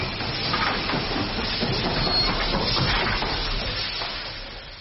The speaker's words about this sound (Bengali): গল্প শেষ হতে না হতেই হুশ করে ইঞ্জিন এসে দাঁড়াল।